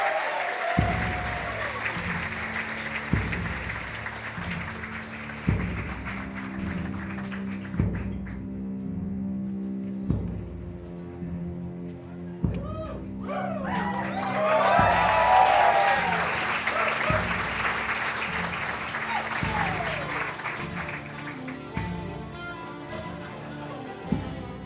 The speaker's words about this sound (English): Ladies and gentlemen, put your hands together nice and loud for Doughboys live at the world famous Hollywood Improv.